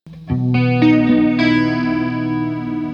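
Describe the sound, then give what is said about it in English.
An electric guitar plays through a chorus effect pedal, with a few notes struck in turn that stack into a loud, shimmering, wavering chord that rings out steadily. “And then the chorus, it's weird when you turn it off like that. And then the chorus is doing this.”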